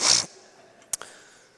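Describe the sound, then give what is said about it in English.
A sneeze during a sermon: one sharp, loud burst of breath at the start, then a brief faint snuffle and quiet. “And I'm about to sneeze.”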